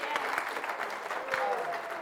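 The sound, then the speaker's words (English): An audience claps for a small group of kids standing up. The steady applause is fairly quiet, with a voice briefly heard over it toward the end. “So this little group, and you guys can clap for them today.”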